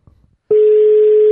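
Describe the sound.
A telephone tone heard while placing a call: after a brief soft rustle, a single pure steady pitch cuts in loudly and holds unbroken to the end.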